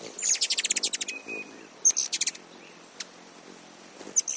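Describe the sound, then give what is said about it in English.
A hummingbird chirps: a fast run of about ten sharp, high-pitched chirps, then a shorter quick burst and a few scattered single chirps among soft faint hiss. “When they're flying, hummingbirds flap their wings about 50 times every second. That's on average. Some beat their wings even faster, and some do flap a little slower. When they sing or chirp, they actually sound like this.”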